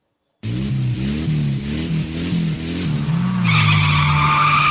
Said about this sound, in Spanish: Derrapando.